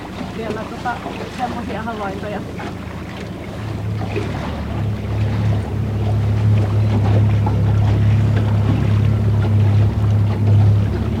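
Motorboat engine on a lake in Linnansaari National Park during a seal-watching trip: a steady low drone that grows louder after a few seconds and holds, with wind buffeting and water noise around it.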